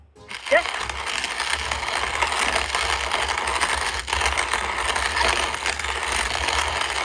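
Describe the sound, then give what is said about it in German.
A hand-operated coffee grinder gives a steady, dense mechanical rattle and ratcheting grind. It runs at an even loudness from start to end with no pauses. “Eine handbetriebene Kaffeemühle.”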